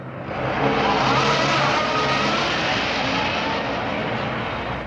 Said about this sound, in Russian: Захлопывает за ней дверь. Такси уезжает.